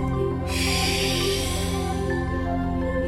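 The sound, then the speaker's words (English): Deep, airy inhale after a held breath in a breathwork session, starting abruptly and drawn out steadily over a sustained musical drone. “Stop completely. Inhale.”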